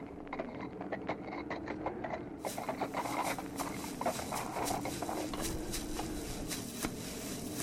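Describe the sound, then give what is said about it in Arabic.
Hooves of a horse walking slowly and calmly, many steady clip-clops in an even rhythm over a low background hum. “بركت يا فرسي العزيز، تحرك هكذا بهدوء حتى يجف عظمك.”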